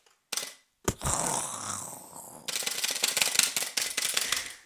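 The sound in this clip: Keys on a keyboard clack as the space bar is pressed, with a couple of sharp, isolated clacks at first and then a dense run of rapid, crisp clicks.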